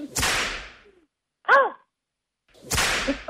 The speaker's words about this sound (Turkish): Hadi bir son bir kez kırbaçlıyorum.